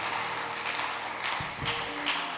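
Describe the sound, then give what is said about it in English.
A church audience claps during a worship service as a clap offering. The soft, continuous patter of many hands stays faint and even throughout. “Give the Lord another good clap offering.”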